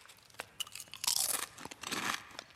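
Food being eaten gives quiet, crisp crunching and chewing, with several sharp bites and crunches scattered among softer mouth sounds and no talk.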